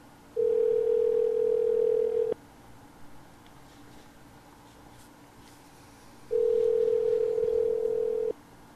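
Telephone tones sound on a call to an apartment office's line: two long, steady, even-pitched tones of about two seconds each, separated by a quiet pause, with no voices.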